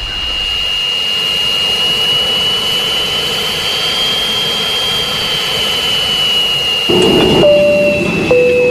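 A jet aircraft taking off, its engines a loud, steady roar topped by a piercing high whine that holds throughout, growing slightly harsher toward the end, with no voices.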